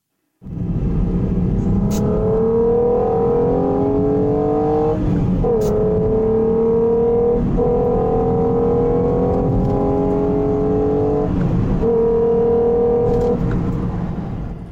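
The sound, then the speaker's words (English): A 12-valve VR6 car engine revving in a loud, continuous drone. Its pitch climbs in stretches, broken by a few abrupt breaks, before it fades at the end. “So that is my beloved 12-valve VR6. It's one of those engines that it gets slated a lot.”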